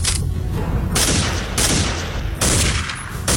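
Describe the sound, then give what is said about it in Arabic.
Loud gunfire fills the whole stretch during an armed holdup: a dense, overlapping volley of shots with several sharper surges and no pauses or voices. “في اطلاق نار”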